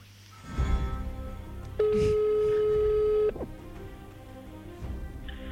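A telephone call rings while waiting to be picked up: a single steady ringback tone of about a second and a half rises clearly above faint background noise, with soft bumps before and after.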